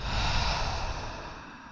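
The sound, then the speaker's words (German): A deep breath in through the nose and out through the mouth during a guided relaxation exercise, heard as one soft, airy rush that swells early and slowly fades, with no talk. “Dann atmen wir gemeinsam dreimal tief ein und aus. Atme über die Nase ein, über den Mund aus.”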